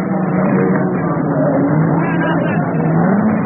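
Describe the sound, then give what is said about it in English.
Racing cars roar at a great endurance motor race. Their engines make a loud, continuous, dense drone throughout, with pitch that rises and falls as they rev. “Listen to the sound of Le Mans. A drama of the Daytona 24 Hour.”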